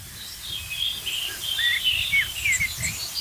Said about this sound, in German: Stattdessen höre ich schimpfende Amseln.